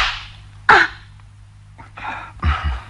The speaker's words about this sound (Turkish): Elimde olmayarak vurdum. Hak etmiştim. Öyle sinirlendirdin ki beni. Biliyorum. Gerçekte benim af dilemem gerekir. Tokatı hak etmiştim.